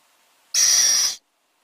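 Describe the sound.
A little owl chick gives a single harsh, hissing call, a loud, high, raspy burst lasting just over half a second between near silence.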